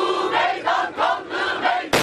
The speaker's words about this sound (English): Video shot at the peace rally captured the festive atmosphere moments before the blast, then carnage.